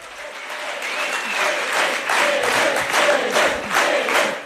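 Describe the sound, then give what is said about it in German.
Crowd cheering and applauding at a Left party special convention as the winner of the Berlin election is greeted, a loud, dense wall of clapping and cheers that holds steady throughout. “Frenetisch wird Elif Eralp, die Siegerin der Berlin-Wahl, auf dem Sonderparteitag der Linken begrüßt”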